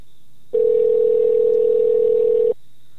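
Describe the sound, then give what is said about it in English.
A telephone dial tone sounds while calling someone: one steady, unbroken mid-pitched tone holds for about two seconds, then cuts off, with no talk over it. “He told me this morning I could call him just before 2 o'clock. So let's see if we get him.”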